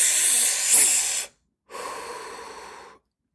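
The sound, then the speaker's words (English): Deep, forceful breaths are let out as part of a breathing exercise. Two long, airy hissing breaths are separated by a short silence, and the first is louder and brighter. “Then at uh, your last breath, when you hit 30, you let out, you go,”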